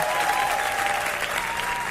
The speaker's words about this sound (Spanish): aplausos fuertes al rey